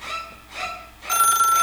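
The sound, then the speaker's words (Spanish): Telephone ringing: two short electronic ring bursts followed by a brighter, sustained warbling ring tone, clear and moderately loud. “¡Hay llamada!”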